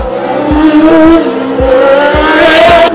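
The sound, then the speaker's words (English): A Formula One racing car, with a damaged front right wheel, runs off the track. Its engine screams in a loud, high whine that drops and climbs again through a few quick gear changes, with a hint of tire squeal. “That's Lauda off, that's Niki Lauda off, and Lauda has damage, we think, to one of the front wheels of the car, the front right-hand wheel.”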